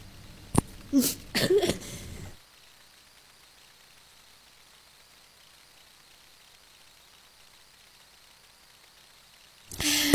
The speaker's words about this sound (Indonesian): maaf, ini batuk lagi nih